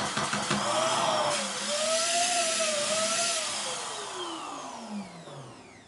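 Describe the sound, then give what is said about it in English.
A small pig-shaped electric balloon pump runs with a steady airy roar and a humming motor tone that wavers, then sinks lower toward the end as it slows. “It's in the shape of a little pig. The air sucks through the nose and it comes out this little spout right here. And the only on-off switch is pressure on this nozzle here.”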